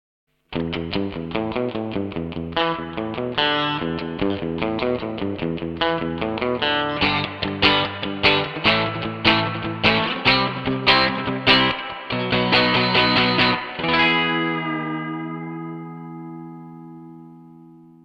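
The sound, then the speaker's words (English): An electric guitar plays through an RV5 digital reverb effects pedal: a run of picked notes and chords with a washed, reverberant sustain, ending on a final chord that rings out in a long fading reverb tail. “RV5 Digital Reverb.”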